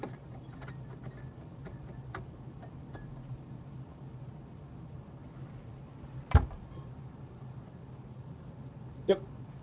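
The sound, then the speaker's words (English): A guitar truss rod being tightened, heard as faint scattered ticks and small clicks, with two sharper, louder clicks standing out near the middle and the end. “I pulled this particular truss rod, I pulled towards the low E, towards myself. Put some tension on it to put more tension on the truss rod”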